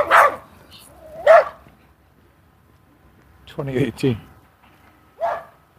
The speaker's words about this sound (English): With a couple little yappy dogs on a leash who take umbrage to my passage.